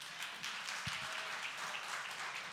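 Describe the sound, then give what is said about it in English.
Audience applause welcomes a speaker on stage, a faint, steady wash of clapping that runs evenly through the whole clip without a break. “Come on, would you put your hands together and welcome Jens.”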